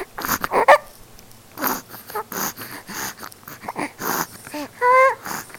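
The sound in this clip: A dog wheezing and snorting in a series of short, rough breathy bursts, with a few squeaky, whine-like tones mixed in.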